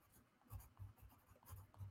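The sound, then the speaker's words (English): Soft, faint scratching of writing on paper with gum arabic, a few short strokes rising and falling in loudness, with quiet pauses between them. “And here I'm going to write more Gum Arabic.”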